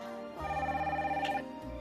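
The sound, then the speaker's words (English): A telephone rings once, a warbling electronic bell lasting about a second, fairly faint against a low steady background. “She places the photo on the bed, rises and answers the phone.”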